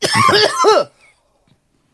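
A person's cough: one harsh, voiced burst of under a second, loud and alone, followed by near silence and a faint click at the very end.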